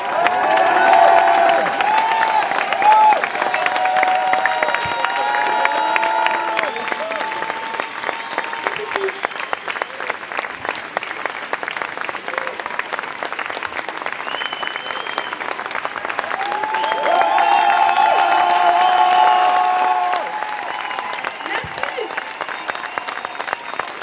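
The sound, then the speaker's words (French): Applause from an audience at a trial of five climate activists as they walk up, steady sustained clapping throughout with crowd murmur and cheering, swelling again near the end, with voices talking beneath. “Ils sont en train de monter, vous pouvez les applaudir pendant qu'ils montent.”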